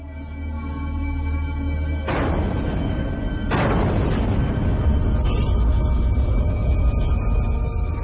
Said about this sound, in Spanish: Para la primera prueba, Able se lanzará la bomba desde un avión. La escotilla de lanzamiento se abre. El avión se aproxima y lanza la bomba.